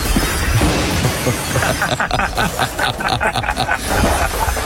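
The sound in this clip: A car's left headlight and right door smashing in a collision, heard as a dense run of many sharp cracking, shattering impacts over steady rough noise.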